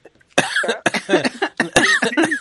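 A person coughing, several harsh, throaty bursts in quick succession, loud and rough, separated by brief pauses.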